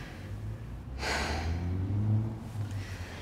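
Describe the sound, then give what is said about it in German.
A deep breath in by a patient at a medical examination who has had breathing trouble, a sudden airy rush after a quiet moment that continues steadily over a low hum. “noch ein letztes Mal tief einatmen”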